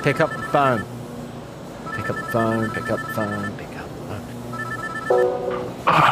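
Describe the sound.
Telephone ringing in three separate bursts, each a warbling electronic tone pattern with quiet gaps between the rings.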